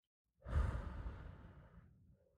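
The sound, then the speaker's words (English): A deep breath taken during a relaxation exercise, heard as one soft, sighing exhale that starts fuller and trails off gradually over almost two seconds, with no talk over it. “let's just take a deep breath so we could practice chilling. So deep breathe in and breathe out.”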